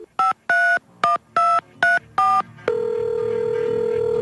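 Touch-tone keypad dialing on a phone in a telephone booth: six quick two-tone beeps in an even rhythm, followed by a steady continuous line tone.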